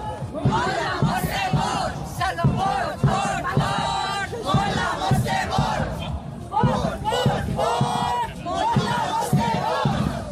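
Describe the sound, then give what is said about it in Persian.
Protesters chant slogans against internet shutdowns, executions and state repression in Iran during a march through central Malmö. Many voices shout loud, rhythmic, repeated phrases in steady bursts that continue for the whole stretch. “معترضان در راهپیمایی حدود یک ساعت در خیابان‌های مرکزی مالمو حرکت کردند و با شعارهای علیه قطعی اینترنت، اعدام و سرکوب حکومتی تلاش کردند صدای مردم ایران را به افکار عمومی سوئد برسانند.”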